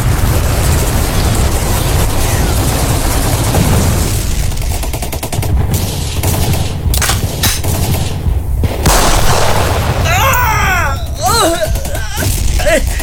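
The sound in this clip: Gunfire aimed at an extremist in a fight, with many sharp shots over a loud, dense, steady noise, and voices heard through the scene.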